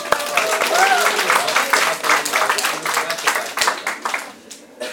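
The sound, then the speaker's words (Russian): A church audience claps for one another after a game during a service. The applause is dense and brisk, with a brief voice rising over the clapping early on before it thins out near the end. “И да, вы все выиграли, давайте друг другу похлопаем.”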